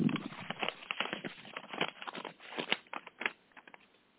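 Paper rustling and crinkling as an award envelope is opened, a dense run of many sharp crackly bursts that thin out toward the end, with no voices.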